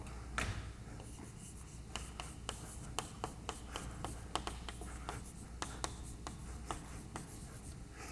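Writing on a board during a mathematics lecture: a quiet string of scratchy strokes and sharp little taps in an irregular rhythm, with no talking over it.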